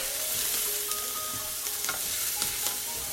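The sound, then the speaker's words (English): Onions sizzling as they fry in a pan, a steady, dense hiss scattered with small pops and crackles. There is no talk over the frying. “Ooh, these are popping onions.”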